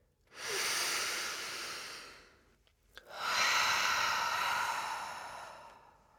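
Deep breathing during a guided relaxation exercise focused on tense, raised shoulders: two long, loud, airy breaths, each lasting about two seconds, separated by a short pause with a faint click.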